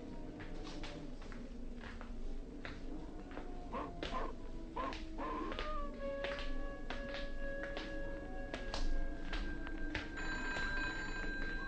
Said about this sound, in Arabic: ده الواد محمد بتاع التليفون نايم والتليفون بيضرب. ما تيجي نشوف مين.